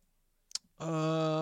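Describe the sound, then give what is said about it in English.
A single short click of a button, crisp and quiet, followed a moment later by a steady tonal musical sound that starts abruptly and holds to the end. “I've got to click a button or two.”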